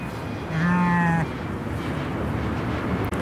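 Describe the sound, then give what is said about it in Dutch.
A sheep bleats once on a farm in Rotterdam, a loud, drawn-out call lasting under a second and rising above a steady background rumble that continues after it. “Een reportage uit Rotterdam was dit bij de schapen van Roel Paul.”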